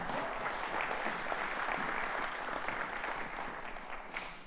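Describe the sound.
An audience applauds to welcome a speaker: a soft, steady wash of many hands clapping that carries on evenly with no pauses.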